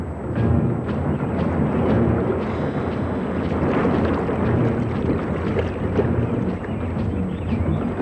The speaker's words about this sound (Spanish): Subieron nuevamente a la balsa y comenzaron a navegar.